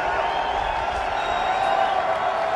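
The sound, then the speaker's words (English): BYU fans cheer in the stadium in Tucson, making a steady, fairly quiet wash of crowd noise that continues unbroken from start to finish. “Well, what you hear are BYU fans here in Tucson.”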